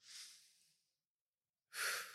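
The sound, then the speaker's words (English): A deep breath taken after a spoken countdown: a breathy rush that fades out, about a second of silence, then a louder, forceful breath that holds to the end. “I think it's time for a deep breath, bro.”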